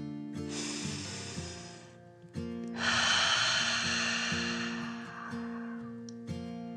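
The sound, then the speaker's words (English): A slow, deep breath in and then a long hissing exhale, blown out like a fire-breathing dragon as a demonstration for a child, heard over steady, gentle background music. “Take a deep breath in and then breathe out slowly, pretending fire is coming out. Like this.”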